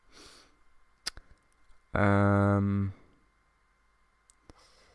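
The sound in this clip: A computer mouse clicks a few times, sharp and sparse, with a louder sustained tonal sound lasting about a second between the clicks.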